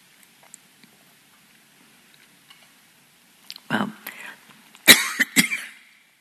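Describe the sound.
A few soft coughs break a near-silent pause: an irritated, throat-clearing cough first, then a short cluster of sharper coughs, all from a tickle in the throat.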